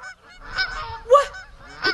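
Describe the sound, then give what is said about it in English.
A large goose from a farm flock honks three times at a steady pace, each call a nasal, brassy blare, with the middle honk the loudest. “The largest of the geese parts from the flock and waddles menacingly toward good Farmer Jenkins' wife, Mabel”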